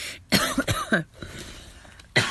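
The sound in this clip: Coughing from a tickle in the throat: a quick run of harsh, loud coughs, then a short pause and one more cough.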